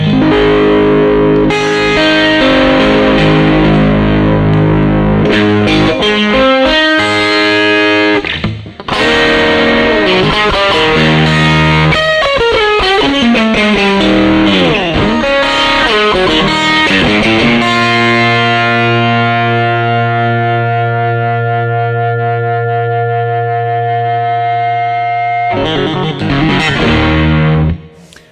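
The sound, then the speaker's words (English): Electric guitar through an overdriven Homestead Texas Storm 1x15 combo amp, the high end breaking up but still clear. Sustained distorted chords and ringing notes play loudly and continuously, with each note of the chords still distinct. “Notice that the high end is obviously kind of breaking up there, but it still has clarity. You can still hear every note of a chord.”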